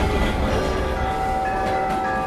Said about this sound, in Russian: Уважаемые пассажиры, наш поезд прибывает на конечную станцию «Дверь».